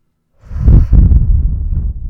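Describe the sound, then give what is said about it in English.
A deep breath drawn as one long, loud, breathy rush of air that starts after a short silence and holds steady to the end, with no talk. “All right, deep breath. Ready?”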